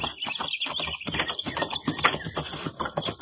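Horses' hooves clip-clop as two riders head out in the morning toward a ranch about fifteen miles from town. Many quick, irregular hoof strikes patter along fairly quietly and keep going throughout.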